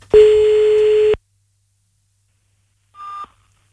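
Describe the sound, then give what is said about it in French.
Ringback tone of an outgoing telephone call: one steady mid-pitched tone lasting about a second, then silence, followed by a shorter, higher beep near the end. “Ah bah déjà ça sonne. C'est mieux qu'hier.”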